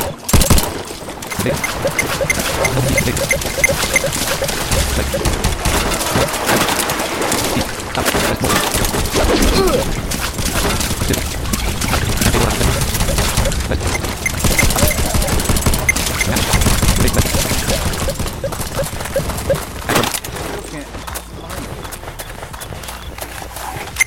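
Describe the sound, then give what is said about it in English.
Rapid gunfire from a multiplayer shooter video game match rattles in loud, dense bursts that run almost without pause for over twenty seconds. “Those guns sound crazy.”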